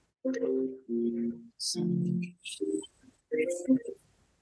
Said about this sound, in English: Sorry, that was my phone. It comes onto my computer.